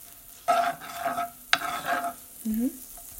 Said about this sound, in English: Let's take the butter off. Just a smidge. I'm not going to go nuts. Okay, here we go. Kind of roll it in there, around in a circle.